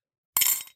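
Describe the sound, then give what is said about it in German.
A handmade pottery cup gives a single short, bright clink that rings briefly and fades, heard alone. “Das ist der Sound der Tasse, die du uns getöpfert hast.”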